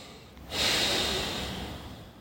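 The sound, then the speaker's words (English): One big deep breath taken during a calming thumb-tapping exercise: a loud, breathy rush of air that swells suddenly, then slowly fades over nearly two seconds. “Big deep breath.”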